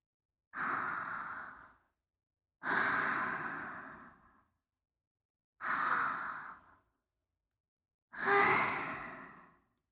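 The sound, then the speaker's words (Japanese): Deep breathing: four long, slow breaths of similar length and loudness, evenly spaced a couple of seconds apart, with no talk. “では、一緒に深呼吸してみましょう。さあ、一緒に。”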